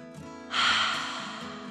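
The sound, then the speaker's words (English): Deep breath in and out by a little girl sitting up straight on a beanbag, a soft intake followed by a louder, airy exhale that swells and then fades slowly. “The little girl sat on the beanbag, holding her back straight, and then took a deep dragon breath in and out.”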